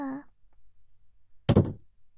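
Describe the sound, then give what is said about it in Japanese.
A door shuts with a single solid, fairly loud thud after a short stretch of quiet, with a brief voice fading out at the very start. “あー、ちょっと先輩、ドア閉めないで、閉めないでくださいよ。”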